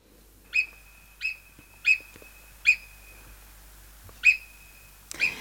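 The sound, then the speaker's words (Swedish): Marmot alarm calls: six sharp, high-pitched whistles, each short and piercing, spaced irregularly with a longer gap before the last two, heard alone over quiet background. “Rätt svar är murmeldjur”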